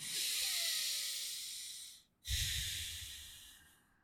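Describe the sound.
Two long exhalations through the nose during a breathing exercise, each a steady airy hiss that slowly fades, separated by a brief pause.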